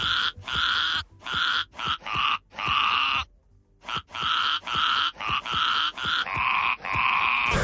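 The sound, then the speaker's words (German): A ram bleating on a pasture in Eppstein, southern Hesse: many harsh, nasal bleats repeated in a fast, regular rhythm, with one short pause partway through. “Streusel ist der Schafsbock von Julia Schomburg aus Eppstein in Südhessen. So klingt er auf der Weide und so klingt er bei uns im Radio.”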